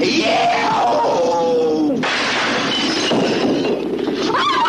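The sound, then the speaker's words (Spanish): Breaking glass as a stone is thrown against a window pane inside a house, a sudden loud crash midway through followed by a noisy, ringing tail. “Son camina sigiloso por la casa, toma una piedra del suelo y la lanza contra un cristal.”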